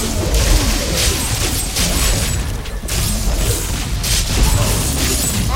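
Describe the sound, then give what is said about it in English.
An exploding fountain in a video game: a dense, loud wall of booming and crashing noise with repeated bursts throughout. “exploding fountain! Oh, I just killed like 10 guys in one shot.”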